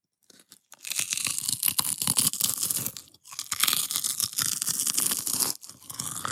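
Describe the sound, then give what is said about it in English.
Dense crunching and crackling as a dried pigskin snack is crushed and chewed up close, loud and continuous with two brief pauses, and no talking. “This is the sound of dried pigskin.”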